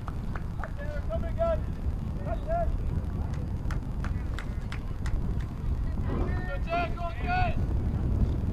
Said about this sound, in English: Wind starts blowing.